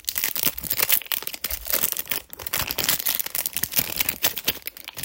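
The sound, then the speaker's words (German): Foil booster packs of Pokémon trading cards are crinkled and torn open, making a dense, continuous crackling rustle with sharp crunchy bursts that runs steadily for the whole few seconds. “Deswegen öffne ich heute wieder Pokémon-Karten.”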